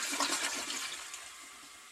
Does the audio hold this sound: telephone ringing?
no